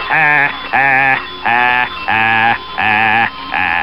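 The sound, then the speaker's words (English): A voice imitates the Phantom of Krankor, a film villain, with six evenly spaced, loud, nasal bleating bursts in a steady rhythm. “I think the worst moderator I could think of for him would probably be the Phantom of Krankor, of course, which sounds something like this.”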